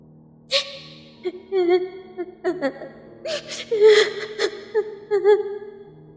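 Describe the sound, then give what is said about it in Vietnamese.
A girl crying at night on a small dirt path among bushes, mournful and eerie: halting bursts of whimpering, wailing sobs broken by sharp gasping breaths, rising and falling in uneven waves throughout. “Là tiếng khóc, tiếng khóc của một cô gái. Thanh âm thê lương lại ma mị vô cùng.”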